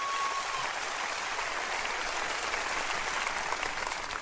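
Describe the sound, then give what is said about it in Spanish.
Congregation applause during a church sermon, steady and fairly soft clapping that holds at an even level throughout without dying away. “Dele un aplauso a él, por favor.”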